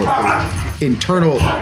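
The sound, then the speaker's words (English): Dogs whimper and yip in a couple of short, high, whiny cries that rise over continuous talking. “my dogs were upset about the point I was about to make”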